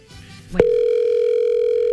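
After a caller hangs up, a short click is followed by a steady, unbroken telephone dial tone that holds at an even loudness to the end.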